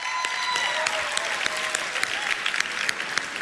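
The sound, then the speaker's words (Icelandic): Applause from an audience for the evening's performers at a competition concert, a dense, steady patter of many hands clapping for a few seconds. “Ef við nefum ekki að gefa öllum sem að voru að spila hérna í kvöld, eitt gott klapp.”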